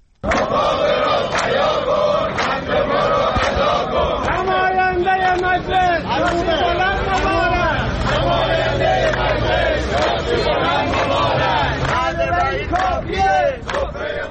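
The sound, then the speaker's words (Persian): Retirees protesting at a rally in Iran chant slogans together, loud and rhythmic, with the group shouting sustained throughout over the general noise of the crowd. “در این تجمعات که از جمله در استانهای خوزستان، کرمانشاه، مرکزی و لرستان برگزار شد، معترضان شعارهایی از قبیل نماینده مجلس شاسی بلند مبارک سر دادند.”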